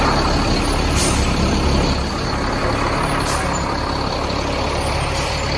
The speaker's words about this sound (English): All this military vehicles coming in, arriving with all the troops.